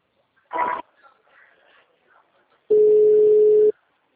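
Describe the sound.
A telephone line tone plays while a call is transferred: a single steady, mid-pitched tone lasting about a second. Faint line noise and a short, brighter burst come before it.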